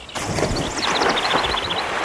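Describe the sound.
Water splashes in a steady noisy wash of sloshing, with a run of high chirping tones over it.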